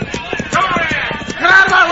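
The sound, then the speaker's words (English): Galloping horses pound along in a radio western drama as a group of riders on horseback chases a man. Rhythmic, fast hoofbeats drum throughout, with a voice rising over the latter part. “he's being chased by a bunch of hombres on horseback”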